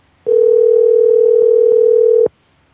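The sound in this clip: A telephone dial tone sounds as a call is placed: a single steady, loud, unbroken hum lasting about two seconds, alone, then cutting off abruptly.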